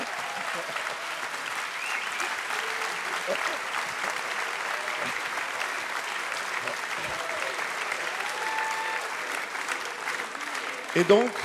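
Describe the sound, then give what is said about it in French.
A sustained ovation from an audience in a hall for a couple's wedding anniversary: dense, steady clapping at an even loudness throughout, with murmuring crowd voices mixed in. “Ça mérite une ovation.”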